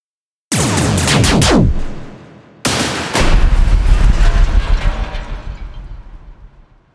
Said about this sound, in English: They rotate on opposite axes and fire again, synced along with the gunship. The remaining fighters explode into shrapnel.